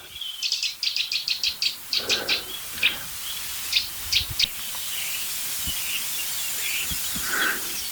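A series of bird calls: a rapid run of many high, thin chirps, followed by a few separated bursts and one last call near the end, standing out over a steady background hiss.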